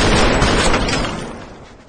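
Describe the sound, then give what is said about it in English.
Gunfire in a shootout as two men exchange shots: a loud, dense burst of overlapping reports that rumbles on and then fades over the second half. “Lester jumps out and exchanges fire with Ray.”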